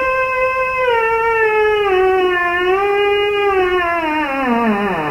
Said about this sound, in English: So that instrument is called a theremin and it's named for the Russian scientist who invented it. It's been used in soundtracks, pop music, and it's an instrument that is played without ever actually touching it.